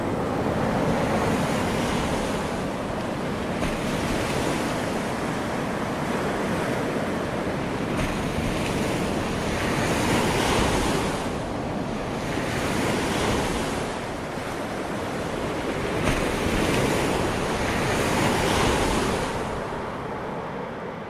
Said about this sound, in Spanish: Con esta marea vamos a ahogarnos. Mira, muéstrale la marea.